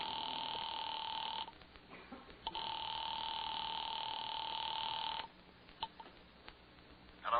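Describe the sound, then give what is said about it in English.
A telephone ringing on the line after a number has been dialed. A steady electronic ring tone repeats in long bursts separated by silent gaps, with a new ring beginning at the end. “on duty in that office, had just dialed the telephone number”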